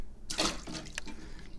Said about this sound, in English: So, let's throw the water out.